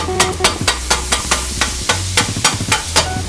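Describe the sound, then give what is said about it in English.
A cheesesteak cooking: a steady sizzle of frying food with many quick, regular scraping clicks as it is stirred, loud and continuous with no talk. “Right now I'm making a cheese steak.”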